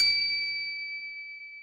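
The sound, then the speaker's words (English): A kitchen timer chime: a single bright, bell-like ding that rings on alone and slowly fades. “A chime echoes from the kitchen. Oh, that's the timer. Dinner must be done.”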